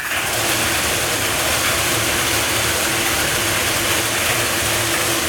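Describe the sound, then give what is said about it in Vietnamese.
Five lottery ball cages are spun for a Kiên Giang lottery prize draw, giving a steady, loud rattling whir with fine ratchet-like clicking that runs throughout. “Tiếp theo chúng tôi quay giải 3 triệu đồng, giải này được quay 5 lồng cầu và quay 7 lần. Đây là lần quay thứ nhất, mời 5 em quay số.”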